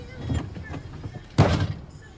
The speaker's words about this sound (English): Ruth opens the door and gets inside.